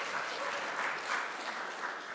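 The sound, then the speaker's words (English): A studio class audience applauds after a bowed string performance, with steady, dense clapping from a small group that stays even throughout and has no talk over it. “The bow slid across the final note in the piece and the studio members applauded.”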